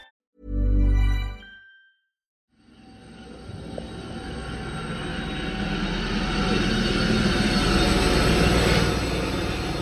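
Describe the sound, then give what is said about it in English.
A helicopter approaching with a screeching, roaring rush that builds steadily in loudness over several seconds, with no voices. “That screeching noise that you can hear, that's the sound of a chopper. And as it gets closer, it starts to shoot.”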